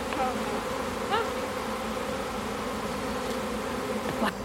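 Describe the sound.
Bees swarm around a hive as they march in after their queen, making a dense, continuous buzzing drone that stays steady throughout, with a few louder buzzes from individual bees passing close.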